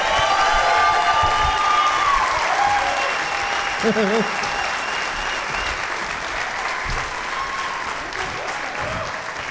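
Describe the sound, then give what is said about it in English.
Audience applause for a group of guests: dense, steady clapping fills the whole stretch without a break and eases slightly toward the end. “One more round of applause for all of my guests, Geoff Tate, Dana Gould, Tom Thakkar, Emma Arnold, and Mark Wahlberg.”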